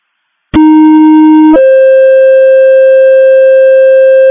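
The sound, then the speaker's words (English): A McLeod County Sunday evening pager test tone: a loud, steady two-tone alert, a lower pure tone for about a second, then a step up to a higher tone held unbroken for about three seconds. “This is your Sunday evening pager test. This is your Sunday evening pager test. McLeod County clear, 1746. Copy.”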